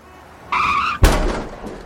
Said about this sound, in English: you just crashed into my Mazda Demio